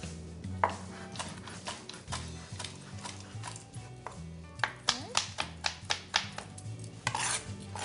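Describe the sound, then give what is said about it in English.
A chef's knife roughly chopping fresh herbs. Sharp knocks come irregularly at first, then as a quicker run of rhythmic chops toward the end, with steady music playing underneath. “Just take your chef's knife, just give it a rough chop.”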